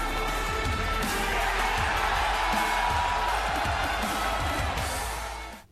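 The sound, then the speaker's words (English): A wrestling crowd at NXT TakeOver Dallas 2016 roars and cheers for Nakamura's entrance as he grabs the ring rope, a dense sustained wall of crowd noise with whoops that holds steady, then drops away abruptly at the end. “we're gonna play a very small clip that's just the audience's reaction in Nakamura's entrance to him just grabbing the rope and doing that thing.”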